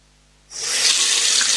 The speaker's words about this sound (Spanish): Abres la llave, sale agua.